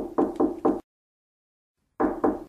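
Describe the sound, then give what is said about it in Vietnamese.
Knocking on an apartment door in a building: three firm, evenly spaced knocks, a pause of silence, then two more knocks, clear and alone. “Tôi gõ một cánh cửa.”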